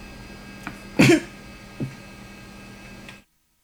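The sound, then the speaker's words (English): A brief coughing fit: one strong, harsh cough stands out, with a couple of fainter coughs before and after it against a quiet, steady background. “excuse me, a little coughing attack”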